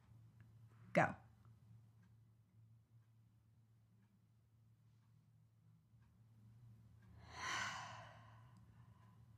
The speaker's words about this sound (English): take the next few moments to take a nice deep breath for me